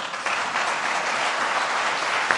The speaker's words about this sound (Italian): Un caloroso applauso ad Alessandro Tommasi.